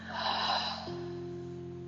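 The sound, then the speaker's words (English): A deep breath drawn in and let out during a guided meditation. A soft, airy rush of breath lasts under a second and then fades, while a steady, low sustained tone carries on alone. “And we'll end by taking a deep breath in and exhaling completely.”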